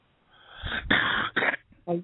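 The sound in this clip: A single sneeze: a rising, breathy intake gives way to a sharp burst, then a trailing gasp, with a brief voice right after.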